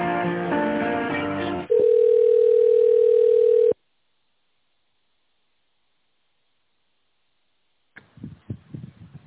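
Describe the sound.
A steady, sustained telephone tone plays while a call is being transferred and connected, preceded by a brief tonal passage. The tone cuts off into silence, and a voice begins after the pause.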